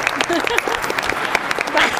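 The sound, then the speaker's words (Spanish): An audience applauds a guest's mother at a live show, with dense, steady clapping running under a speaking voice from start to finish. “otro aplauso para la mujer, iba a decir. Para la madre de Álvaro”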